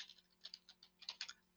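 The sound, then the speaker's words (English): Faint, quick keystrokes on a computer keyboard as a web address is typed, many light clicks in uneven bursts. “So I want you to type in the address now on the top of that.”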